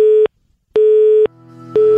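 Telephone busy signal heard when calling a mobile number: loud, steady mid-pitched beeps in a regular on-off pattern, three beeps in all, with a lower humming tone briefly filling one of the gaps.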